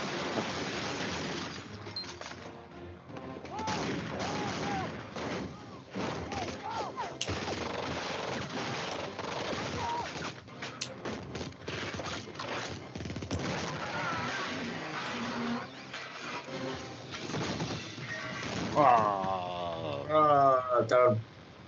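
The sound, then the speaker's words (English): Machine-gun fire in a video game shootout around a building: many rapid, sharp cracks in dense bursts, fairly faint throughout, with a few heavier blasts near the end. “It's that machine gun.”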